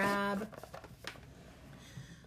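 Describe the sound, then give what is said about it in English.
A deck of tiny herbiary cards is handled, with soft taps, slides and light shuffling clicks after a brief voice at the start. “I'm gonna grab the herbiary cards, mainly because they're tiny.”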